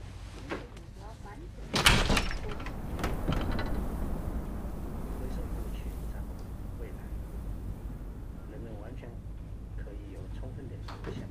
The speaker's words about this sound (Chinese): 好嘛，你去把窗户打开。